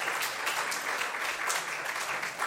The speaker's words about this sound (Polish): Myślę, że można zabić brawa.